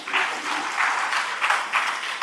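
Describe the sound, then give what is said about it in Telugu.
Applause from an audience at a spoken discourse: dense, steady clapping sustained for about two seconds, loud and even throughout, with no voices over it. “మీకోసం మీరు చప్పట్లు కొట్టుకుంటారా?”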